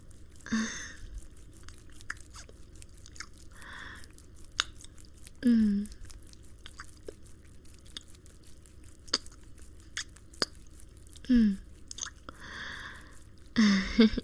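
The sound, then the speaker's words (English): Soft, wet mouth sounds of licking and nibbling on ears: repeated smacks, clicks and squishy licks in a loose rhythm, broken by a few brief breathy vocal sighs. “Let me have a taste of those delicious looking ears.”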